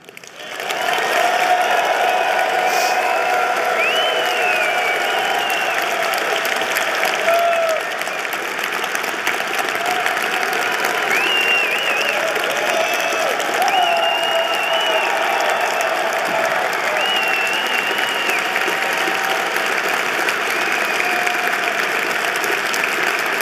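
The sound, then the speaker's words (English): Loud, sustained applause from an audience closing a special evening carries on steadily at a strong level for over twenty seconds, with scattered cheers within it. “I'd like to ask you to join me in showing our appreciation for this magnificent evening, and I ask you to make it loud enough for Evan and Jimmy to hear in Moscow and Hong Kong.”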